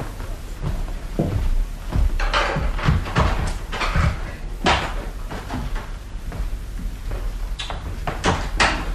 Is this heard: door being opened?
yes